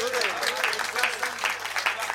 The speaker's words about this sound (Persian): آقا دو دقیقه کف بزن به عشق امیرالمومنین.